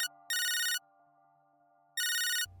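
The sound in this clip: A telephone rings for an incoming call in two bright, high trilling bursts separated by a pause, over a low steady hum, with a soft low rumble at the very end.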